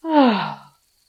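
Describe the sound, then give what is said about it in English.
A deep breath released as a single voiced sigh during a guided relaxation exercise, swelling quickly and then fading over well under a second, with nothing else heard after it. “One last time, breathe in and breathe out.”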